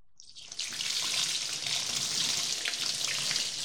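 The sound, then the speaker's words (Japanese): Hot bath water poured over a person's body gives a steady, rushing splash-hiss that starts suddenly and runs unbroken for about three seconds, with no voices. “ちょっとかけすぎたかいな。でも、お湯はたっぷりあるんやし、贅沢に使っちゃおう。”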